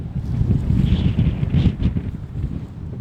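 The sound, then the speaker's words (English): Strong wind sweeping across boggy, barren open land with tall dry grass, a loud low roar buffeting the microphone in uneven gusts, with no voices. “And there's wind, a lot of wind.”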